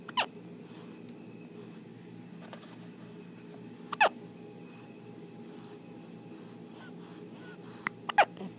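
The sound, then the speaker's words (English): A newborn baby hiccuping: a few short, sharp hics spaced seconds apart, with two landing close together near the end, over a quiet, steady background hiss. “we started hearing a little noise come out of the baby. Could it be? Yes, it was indeed. He was hiccuping.”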